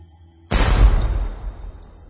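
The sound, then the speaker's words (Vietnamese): A cannon fires a shell at a ship: one sudden, loud boom that breaks out of near silence, then a long rumbling roar that slowly fades away. “Nòng pháo lóe ánh lửa, quả đạn pháo đã đâm lút vào thân tàu kia.”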